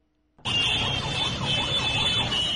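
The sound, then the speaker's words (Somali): Vehicle horns blare in a traffic jam on a main road in Mogadishu. The loud, high, wavering tones start abruptly and then run unbroken, with no voices. “hoonka gaadiidka kala duwan ee aad maqlaysaan waa ciriiri ka taagan mid ka mid a wadooyinka halbowlaha u ah isu socodka dadka iyo gawaarida Muqdisho”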